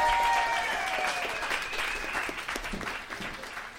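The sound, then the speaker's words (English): Audience applause for a guest at a recorded show: sustained, dense clapping that holds steady and eases off slightly toward the end, with no speech over it. “But please, make some noise for Ian Daniel Kehoe”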